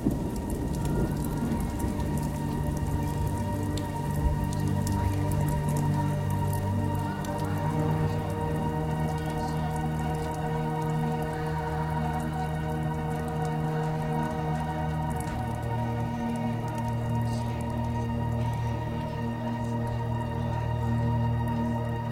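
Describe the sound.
Rain falls steadily for over twenty seconds as a dense, even hiss of drops. Sustained low tones run continuously beneath it.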